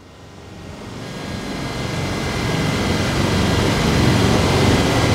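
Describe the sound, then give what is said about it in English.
Dense droning wash from a synthesizer with 1000 oscillators all out of tune with one another, a thick noisy continuous texture that swells steadily louder over the first few seconds and then holds. “What you're hearing right now is 1000 oscillators that are completely out of tune with each other.”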